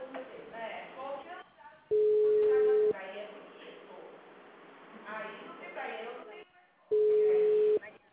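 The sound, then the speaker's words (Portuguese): Telephone busy tone after a dropped phone call: two long, steady single-pitch beeps, each about a second, separated and preceded by a person talking on the line. “Oi, acho que a ligação caiu.”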